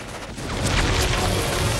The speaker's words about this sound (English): The others start firing at the attacker, but it's already retreated into a tunnel in the wall.